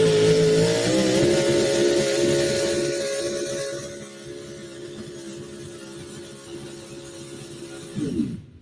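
An old Ford competition car called Thumper, chasing a Chevrolet, holds a loud, steady high-pitched engine drone that eases in volume halfway through, then drops sharply in pitch near the end.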